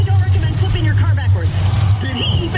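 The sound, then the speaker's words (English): Engine roar of a monster truck at a rally, a deep, steady low rumble that runs through the whole stretch, with voices talking over it. “Progressive presents Flo and JB announcing a monster truck rally. And here comes the obliterator. Whoa. And he's up on two wheels.”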